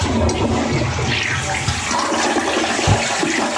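A toilet flushes with a steady, loud rush of water that fills the whole clip at an even level, with a brief low thump near the end.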